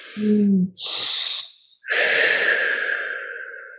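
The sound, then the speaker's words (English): A deep breath taken on its own: a short voiced sound, then a breathy inhale, then a long, steady exhale that slowly tapers off. “Maybe everyone just wants to do a collective Happy Doc Student Podcast audience deep breath.”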